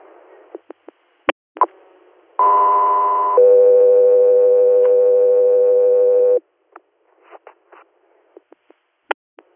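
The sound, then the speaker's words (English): Radio dispatch alert tones for an air medical crew play as a sequential two-tone page: a higher steady tone for about a second, then a lower tone held for about three seconds. Scattered clicks and radio pops come before and after. “standby for tones.”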